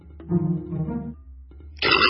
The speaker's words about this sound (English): One burp deserves another. I'm sorry, are you guys saying something? I couldn't hear you over the burp.